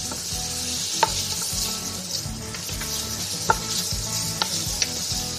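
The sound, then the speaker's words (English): Garlic and onion sauté in extra virgin olive oil in a pan over medium heat, giving a steady, bright sizzle broken by occasional sharp clicks of stirring, with no voices. “let's put this over medium heat and start to saute that garlic and onion.”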